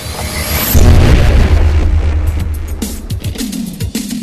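Time machine controls firing up as a sound effect: a thin high whine at first, then a heavy, loud low rumble and boom that kicks in before the first second and keeps roaring steadily to the end.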